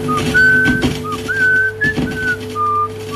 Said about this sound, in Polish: Drugi dźwięk uzyskany z talerza to prosta melodia. Zachowała się prosta fraza, pogwizdywanie.